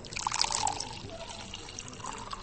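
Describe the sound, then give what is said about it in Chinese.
Red wine poured by a waiter into a stemmed wine glass at a Western restaurant, a soft, steady trickling pour with a light liquid gurgle, fairly faint throughout. “服务员将红酒倒入高脚杯中”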